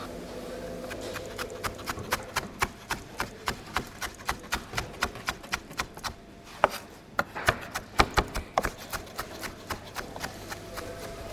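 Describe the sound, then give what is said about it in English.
Knife chopping food on a board in a calm, friendly kitchen: many crisp, evenly spaced strokes tap out a steady rhythm over a soft background hum, with a brief pause midway before the cutting resumes. “What's really sweet is it's just such a calm and friendly kitchen. Everybody seems to get on really well. a couple of them are married. But there's just this kind of chatting and gentle low-level noise.”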